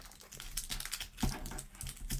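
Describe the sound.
Tape being peeled off a cardboard box gives a faint, continuous crackly rasp with small scattered clicks and one sharper snap partway through.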